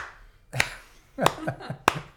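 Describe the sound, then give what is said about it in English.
A slow clap: a few sharp, separate hand claps spaced unevenly apart, with quiet gaps between them. “Slow clap.”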